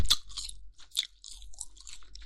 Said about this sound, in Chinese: 这个皮也很脆，很有嚼劲呢。